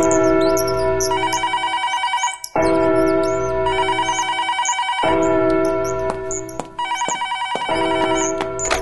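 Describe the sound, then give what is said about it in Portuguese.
An intercom rings in a house at midday, a bright electronic trilling tone that repeats in a steady cycle about every two and a half seconds, loud and alone with no talk. “ao meio-dia, toca o interfone na casa de Dona Cida.”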